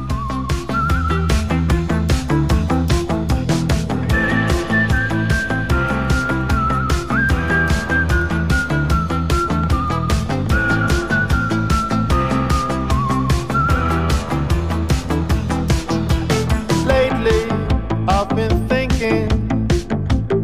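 A whistled melody leads a new pop song, a bright, wavering tune carried over a steady beat and backing instruments throughout.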